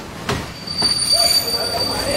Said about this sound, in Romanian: Uite ce frumoasă este o gară.